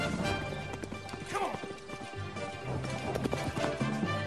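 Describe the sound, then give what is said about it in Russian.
Hoofbeats of a horse galloping in a chase, a quick, continuous rhythmic pounding that stays fairly loud throughout, set against a dense background. “Алан, скача галопом, пытается догнать сбежавшую лошадь. Вперед, давай! Та убегает от него. Показывают погоню Алана за лошадью.”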